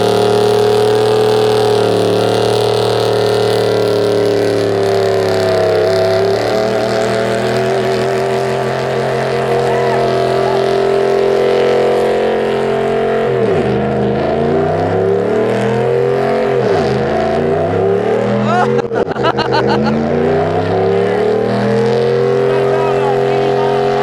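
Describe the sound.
A car engine roars through a burnout done with burnout spray, with only the right wheel spinning. The loud drone is sustained, and its pitch sags and recovers in several dips near the end.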